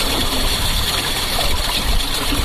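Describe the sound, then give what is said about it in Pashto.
Water running through a drip irrigation system on farmland: a steady, fairly loud trickling and gurgling flow that continues without a break for the short clip. “دغه ژغ د اوبو څاڅکي سیستم دی چې د انرژي یا اوبو د ضایعاتو د مخنیوي لپاره یو مرجنه چاره بلل کیږي.”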